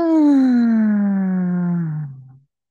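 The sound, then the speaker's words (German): A person exhaling with a voiced 'ah' tone during a breathing exercise: one sustained, clear hum that slowly drifts lower in pitch and fades out after about two and a half seconds. “Und beim Ausatmen lass einen Ton mitschwingen.”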